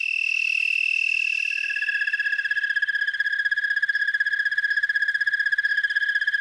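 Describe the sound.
Fiddler insects sing before sunset after a light frost, which lowers the pitch of their song. The song is a steady, high-pitched trill of rapid, even pulses, heard alone and continuous throughout.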